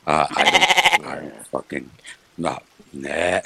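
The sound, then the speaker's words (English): A goat bleats in a loud, wavering, pulsing cry, then people talk in short bursts around it. “We don't need the goat in here.”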